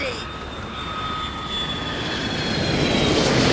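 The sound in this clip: An aircraft engine drones steadily as the plane comes in for a landing, a broad roar with thin whining tones that grows gradually louder over a few seconds.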